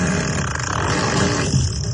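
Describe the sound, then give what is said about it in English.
Fart sound effect played from a Tesla car's fart menu: a loud, low, raspy rumble that runs steadily through the whole two seconds with a rough, buzzing texture and no talk. “My Tesla has a fart menu now. Hit the whoopee cushion, turn on fart on demand, fart on turn signal. We've got a whole variety of farts, but let's go with...”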